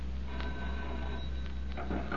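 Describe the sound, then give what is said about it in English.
Telephone ringing in a New York office, a faint bell-like ring over a steady low hum, with no voices. “Matthew Kent, multimillionaire manufacturer, receives a mysterious telephone call in his New York office”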